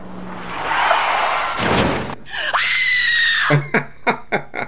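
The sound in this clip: A car crash sound effect: a burst of noise and a long, shrill screech, then a few quick, sharp thuds and bangs at the end.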